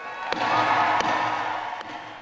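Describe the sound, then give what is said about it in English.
A gavel strikes three times, sharp and evenly spaced, calling a political party's national convention to order over the steady murmur of a large crowd. “Terry McAuliffe, the chair of the Democratic National Committee, gaveling the Democratic Convention to order.”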